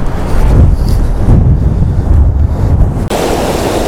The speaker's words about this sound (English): I can't believe this wind's come back It was so nice this morning, and now it's just horrendous again.